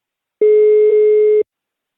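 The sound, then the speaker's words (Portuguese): A single steady ringback tone sounds on an outgoing telephone call. It is one unbroken mid-pitched burst lasting about a second, heard alone with no talk, starting and stopping abruptly. “tá chamando Guilherme”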